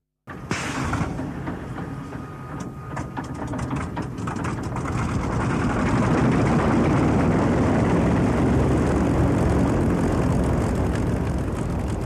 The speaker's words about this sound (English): It was never the easiest aircraft to control, both on the ground and in the air, but was respected by its pilots to do the job and bring the pilot home. The name of this aircraft, Typhoon.